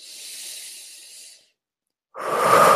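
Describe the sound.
Breathing during a guided meditation: a soft, airy breath that fades out, a short stretch of silence, then a louder, fuller breath rushing in.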